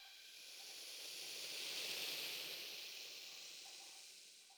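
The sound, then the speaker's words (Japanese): Fizzing of many tiny bubbles popping, a soft steady hiss that swells toward the middle and then eases off slightly, with no voices. “泡がはじけていく音そのものも相当心地よく感じられるはずです。”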